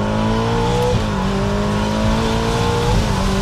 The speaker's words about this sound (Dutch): En dan schakel je bijvoorbeeld terug naar z'n 2 bij 70 en een vol op het gas.